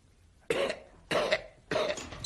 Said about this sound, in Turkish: Öksür. Öksürmeni istiyorum.